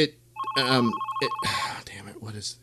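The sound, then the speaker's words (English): Telephone ringing with an incoming call: one sustained electronic ring of just over a second, with a voice talking before and over it. “holy crap, I got a caller. I don't take calls on this show.”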